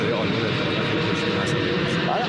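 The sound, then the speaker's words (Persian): Airplanes flying overhead make a steady, dense, broad roar of jet noise that holds at an even loudness throughout with no clear breaks. “طبق معمول اونجا پرواز هواپیما زیاده، کلا این مورد رو در ارتباطات قبلی هم داشتیم.”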